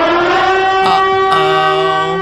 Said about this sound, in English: I just really wanted to play the siren effect.